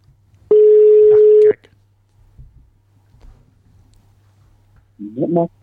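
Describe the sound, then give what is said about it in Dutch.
A telephone line rings once as a call is placed: a single loud, steady tone lasting about a second, then a faint low hum, and a brief voice near the end. “Gaan we eens proberen te bellen.”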